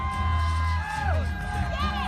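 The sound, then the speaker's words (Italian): Crowd cheering along the route of the New York City Marathon, a loud, continuous roar of voices with rising and falling whoops and shouts standing out above it. “Questa è la folla che fa il tifo durante la maratona di New York.”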